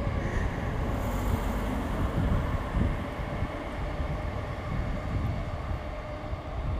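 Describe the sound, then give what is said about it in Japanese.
Heavy rumble of a train running on another rail line, a steady, dense roar that holds at an even level from start to finish. “また別の線の電車が走っております。”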